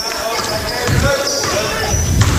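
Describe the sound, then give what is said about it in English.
A basketball is dribbled on a court during a game, with a few low bouncing thuds under steady crowd noise and voices. “They're dribbling it around, pass it.”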